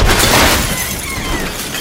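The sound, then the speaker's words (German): Glass shatters as a fist smashes through a car windshield: a loud, harsh burst of breaking glass that sprays into a dense, crackling noise lasting nearly two seconds, with no voices. “Ich stieß meine rechte Hand durch die Windschutzscheibe”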